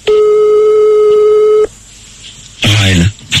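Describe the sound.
An outgoing telephone call rings once with a single long, steady tone lasting over a second and a half. A short pause follows, then a voice briefly comes on the line.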